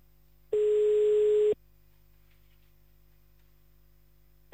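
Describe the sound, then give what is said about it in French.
Ringback tone of an outgoing telephone call to a town: a steady, hum-like tone sounds alone for about a second, falls silent for roughly three seconds, then starts again at the very end. “Allez, c'est parti, on y va, on appelle à Mont. Allez, hop là.”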